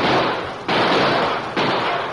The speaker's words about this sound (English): All right, men, shoot over their heads to turn them away. All right, fire!